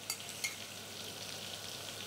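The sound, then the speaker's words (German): Butter sizzling in a pan with vermouth while fish is crisped: a dense, steady crackling hiss with a couple of brief sharper pops near the start, with no voices. “Hier haben wir die Butter noch mal schön aufgebraten mit dem Wermut.”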